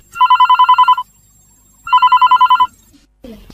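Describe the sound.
A telephone rings for a caller on a radio phone-in with two trilling ring bursts, each under a second long, separated by a short silence, followed by a faint brief sound.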